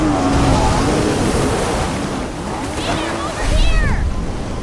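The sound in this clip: A jet ski races over open water, its engine and spray forming a loud, steady roar of rushing noise that swells near the end, with voices heard over it.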